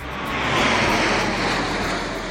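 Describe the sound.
Military jets flying overhead during an American Independence Day celebration at the Lincoln Memorial, a broad, rushing roar that swells and then slowly eases, steady and without speech.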